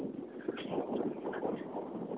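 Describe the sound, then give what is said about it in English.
Wind buffets a microphone outdoors in cold weather, making a continuous, muffled rumbling roar that stays fairly even throughout. “Keeps some of the wind, anyway, out of the microphone.”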